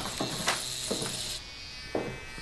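An electric razor buzzes faintly and steadily as it shaves a boy's lice-infested head, with a few brighter rasping surges as the blades pass through hair.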